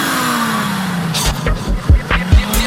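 Engine of a Porsche Panamera car: a steady engine note sinks in pitch, then several short, loud rev bursts follow.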